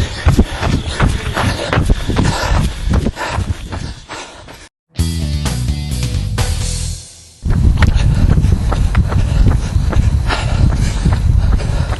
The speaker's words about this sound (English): All right, I am back home doing a recovery run, 4 miles, which I'm going to actually stretch to 5.